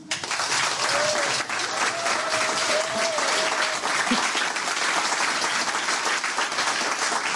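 A full studio audience applauds: steady, dense clapping at an even level for the whole stretch, with no speech over it.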